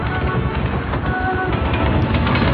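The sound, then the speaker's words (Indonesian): A passenger train moving on rails gives a steady, dense rumble with continuous rattling and clatter that holds at an even, loud level throughout, with no voices. “Kini kereta kami pergi menjauh dari kereta yang lainnya.”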